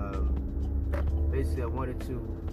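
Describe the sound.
Steady low rumble of a car interior on a drive in, a constant drone of engine and road noise running beneath a man's talking.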